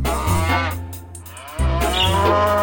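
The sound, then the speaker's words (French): Cows mooing on a farm: a couple of long, low, droning moos with rich harmonics, the second starting abruptly and holding steady to the end, loud and with no talk. “Au revoir les vaches, à bientôt.”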